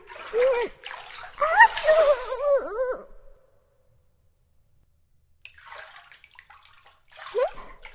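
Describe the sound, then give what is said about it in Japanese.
Hot bath water stirred by hand, with splashing and sloshing; a high voice sounds early on, then after a silent pause comes softer, irregular water movement. “こうなったら、お湯に手を突っ込んでかき回して、”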